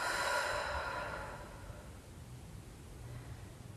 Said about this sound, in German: Atme nochmal ganz tief ein und aus.